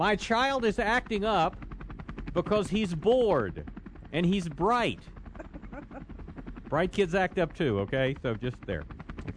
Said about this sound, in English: See, that's a helicopter in the background, in case you can't tell.